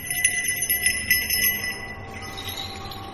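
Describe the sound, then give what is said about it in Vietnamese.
Jingling bells like a soul-calling bell at a graveside: a quick run of bright, clinking strikes for about two seconds, then a faint lingering ring that fades out. “thì bất ngờ có tiếng leng ca leng keng như tiếng chuông gọi hồn”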